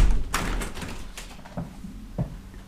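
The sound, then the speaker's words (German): A window being shut: a sharp clack, then a few softer dull thuds and knocks spread over a couple of seconds, with no talking. “Ich muss das Fenster zumachen.”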